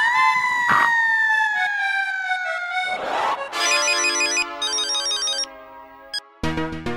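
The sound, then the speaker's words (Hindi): A phone ringtone plays as a call goes to a neighbour's home, a loud electronic melody of sustained tones followed by quick repeating note patterns, running continuously throughout. “ठीक है phone करती मम्मा”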